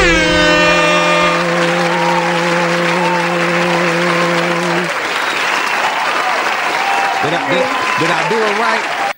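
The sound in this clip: Loud, continuous audience applause welcoming a guest onto a music talk show. A sustained, brassy horn-like tone blares through the first half, and cheering voices rise within the clapping toward the end.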